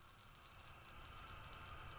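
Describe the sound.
Butter sizzles in a frying pan, a faint, steady crackling hiss that holds evenly for about two seconds with no talk over it.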